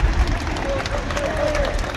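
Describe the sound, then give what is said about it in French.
Sustained applause from a crowd gathered on the forecourt of Saint-Sulpice church as former French president Jacques Chirac's coffin leaves his funeral, with dense, steady clapping throughout. “Le cercueil de Jacques Chirac a quitté l'église Saint-Sulpice comme il y est entré, sous les applaudissements nourris d'une foule massée sur le parvis.”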